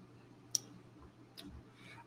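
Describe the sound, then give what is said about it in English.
Two faint, sharp computer mouse clicks stand alone over a low steady hum, one near the start and another about a second later. “Give me a minute. I can only click so fast.”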